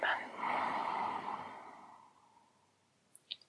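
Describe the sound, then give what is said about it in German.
A slow, deep breath during a guided breathing exercise: one long breathy rush of air, loud at first and gradually fading over about two seconds, followed by two faint brief clicks. “Noch ein letztes Mal tief einatmen, tief ausatmen.”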